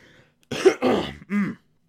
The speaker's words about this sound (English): Had a little bit of something in my throat.